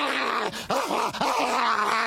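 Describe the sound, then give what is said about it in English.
A human voice imitates a dolphin with a continuous, nasal, squeaky vocal sound that wavers in pitch and dips sharply a couple of times, heard alone without other speech. “followed by a clip of a dolphin going,”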